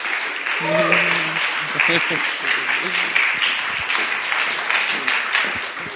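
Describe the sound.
A church audience applauds to welcome a guest speaker, with steady, dense clapping throughout and voices heard over it, strongest near the start.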